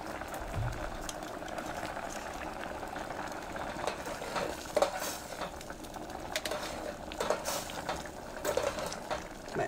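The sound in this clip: A spoon stirs a glutinous rice dessert in a pot, making a soft, continuous scraping with occasional light clinks. The sound stays faint and steady throughout, with no talk.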